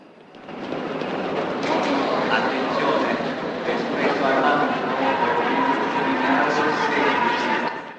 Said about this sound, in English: A train pulls in.